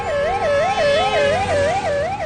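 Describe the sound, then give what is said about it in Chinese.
A police car siren wails as the car speeds past outside a hospital: a loud, continuous up-and-down wail that cycles quickly and evenly from start to finish. “医院外面，警车呼啸着警笛疾驶而过。”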